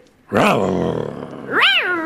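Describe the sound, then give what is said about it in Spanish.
A human voice imitating a tiger's roar in two drawn-out, growling calls, the first held long and steady, the second shorter and swooping up then down in pitch. “Necesitamos tu rugido. El rugido de tigre.”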